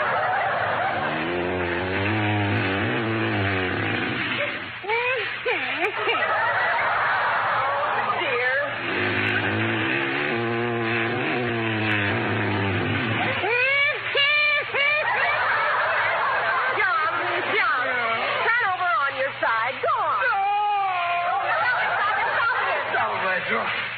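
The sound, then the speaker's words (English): Whining, snarling, giggling and clanging noises keep up without a break, with snickering giggles and squealing, whining sweeps mixed through busy, clattering sound for over twenty seconds. “I just can't stand another second of it. That whining and snarling and giggling and clanging is driving me out of my mind.”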